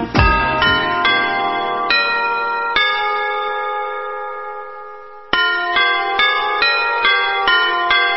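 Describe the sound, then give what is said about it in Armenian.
City hall bells in Yerevan chime the city anthem as a melody of bright, ringing strikes. One long note hangs and fades through the middle, then a quicker run of notes resumes, with no voices. “Հրաչյա Սարգսյանը հայտնել էր, որ Երևանի բոլոր վարչական շրջաններում առավոտյան 7-ից հնչելու են Երևանի հիմնի ղողանջները, այն նույն երաժշտությունը, որը ժամը 1 միանում է հենց քաղաքապետարանի շենքից”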